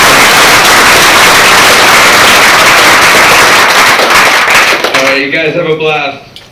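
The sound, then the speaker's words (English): Audience applause after a lightning talk, a loud dense wash of clapping that thins and fades near the end as a voice starts speaking. “Everybody give Dan a big round of applause.”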